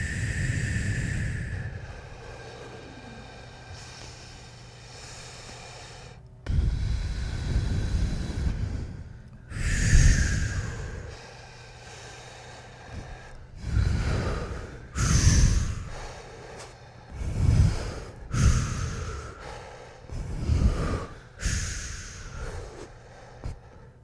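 Loud breathing during a breathing exercise: long, rushing inhales and exhales that come quicker as the breaths speed up into one big exhale, heard alone without talk.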